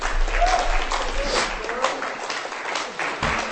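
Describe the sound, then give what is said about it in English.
Audience applause for a performer at a reading: dense, loud clapping sustained throughout, with voices heard over it. “Give him a hand.”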